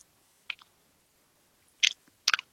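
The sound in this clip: Someone chews a yellow sweet: a few short, crisp crunching bites come in small bursts separated by near silence, with the last two bursts louder than the first.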